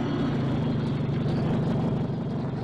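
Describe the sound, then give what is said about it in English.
Steady low engine rumble from a heavy, sleek convertible rolling up on the gravel of a gasoline station in Brentwood, New Jersey. The motor drones evenly and fairly loud throughout, with no voices. “Then, one day, a heavy, sleek convertible rolled up on the gravel of a gasoline station in Brentwood, New Jersey.”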